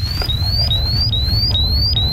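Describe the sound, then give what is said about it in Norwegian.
A gas detector alarm sounds in a livestock barn while manure is stirred: a high, rapidly repeating electronic chirp rises in pitch on each beep, about twice a second, over a steady low rumble. “Alarmen går fra gassmåleren.”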